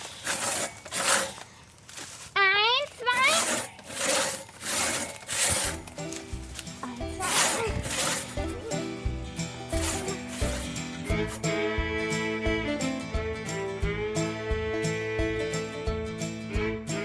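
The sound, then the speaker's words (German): A hand saw cuts a log on a sawhorse outdoors with steady, rhythmic back-and-forth rasping strokes. A sustained tonal drone joins partway through. “Der Ranger mit dem grauen Raspelhaar krempelt die Ärmel seines Outdoor-Shirts hoch, schiebt den Baumstamm auf dem Bock ein Stück weiter und sägt die nächste Kerbe vor. Die Mädels übernehmen.”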